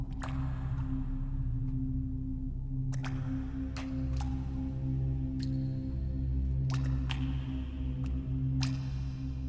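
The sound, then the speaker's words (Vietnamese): Water dripping from an outdoor tap late at night, with many sharp, irregular drips plinking over a low, steady hum. “Tiếng nước vẫn chảy tí tách ở ngoài kia. Giữa đêm khuya thanh vắng, cái thứ tiếng nước chảy ấy nó cứ như tấn công thần kinh của con người vậy.”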